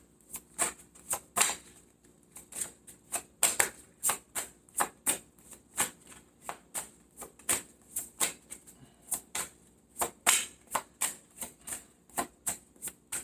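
Tarot cards being shuffled and drawn, many crisp separate snaps and flicks in a loose, uneven rhythm, fairly faint and without voices.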